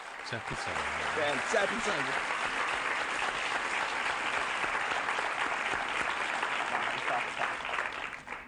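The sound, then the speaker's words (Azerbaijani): Audience applause fills the whole span as a dense, steady wash of clapping at an even loudness, fading slightly at the end, with a voice briefly heard over it near the start. “Alqışlayın məni.”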